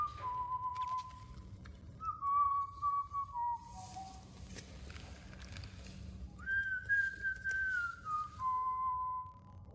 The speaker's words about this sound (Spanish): que silba mientras se peina con parsimonia su pelo engominado